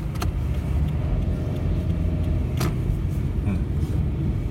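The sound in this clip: Engine rumble of a police prisoner transport van driving past on an Almaty street during the January unrest. A dense, steady low roar is broken by a couple of sharp clicking knocks.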